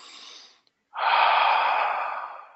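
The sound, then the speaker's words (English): A deep breath: a quieter airy intake, a short pause, then a long, loud, breathy exhale that fades slowly. “So take a nice deep breath or two.”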